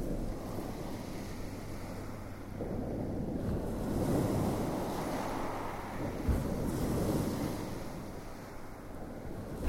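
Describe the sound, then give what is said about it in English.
Waves washing along a shingle beach, a continuous roaring wash that swells louder in the middle and then eases off, with no voices. “With one consuming roar, along the shingle, the long wave claws and rakes the pebbles down to where its backwash and the next wave mingle.”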